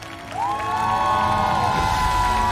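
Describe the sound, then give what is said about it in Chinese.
An audience applauds and cheers to welcome guests onto the stage at a Chinese traditional-style music show. The clapping swells at the start and then holds steady and loud, with a held musical tone above it. “首先让我们掌声欢迎国风音乐社的寻风主理人王佩瑜老师、立波老师”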